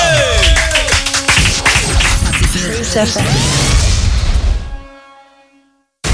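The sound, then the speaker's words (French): Audience clapping and crowd noise for a guest on a youth radio show, loud and busy at the start, thinning out and fading away to silence after about five seconds. “Applaudissements s'il vous plaît pour Meryl.”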